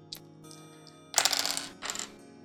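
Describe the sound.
Dice rolled during a game clatter in one longer rattling burst followed by a shorter second rattle, over a faint steady tonal background.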